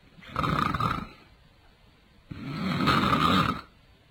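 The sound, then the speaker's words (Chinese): A voice imitates loud snoring from a sleeping man: two long, rough, rasping snores, the second longer and fuller, separated by a short quiet gap. “徐良那呼噜声离多远都能听见”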